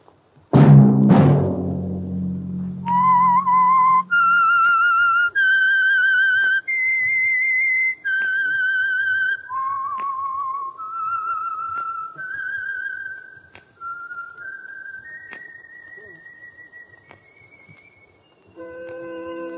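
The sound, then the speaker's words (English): A whistled signal tune for an oil company's program: many clear, sustained whistled notes stepping up and down in pitch in a short melody. It follows two deep, resonant struck tones at the start. “Let that whistle be your signal for the Signal Oil program, The Whistler, each Wednesday night at this same time.”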